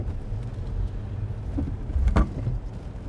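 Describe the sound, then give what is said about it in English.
Low, steady rumble of a fully electric Tesla car driving, with no engine note, just a soft, even road and tyre drone that swells slightly midway. “Another thing that you notice is that the Tesla, which is fully electric, feels different when you're driving.”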